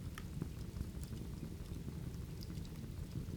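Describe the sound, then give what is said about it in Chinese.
Rain falls as a faint, steady hiss with soft scattered drops, continuous and even throughout, with no voices. “听见了什么？雨声。”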